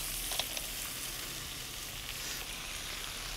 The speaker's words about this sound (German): Der Süßanteil, da brauche ich nicht viel, das ist die Karotte. Und ganz wichtig finde ich immer Staudensellerie. Ja. Und jetzt kommen hier so die Taschenkrebse dazu.